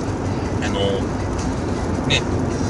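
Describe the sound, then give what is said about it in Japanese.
Car interior while driving, picked up by a smartphone voice recorder: a steady low road rumble and broad hiss, with a few brief higher tones. “で今これね、車運転しながら、やってます。”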